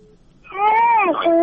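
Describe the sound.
A young child's voice comes through during a radio call-in: one drawn-out, whining cry that swells and wavers, dips briefly, then holds steady. A faint short tone comes before it.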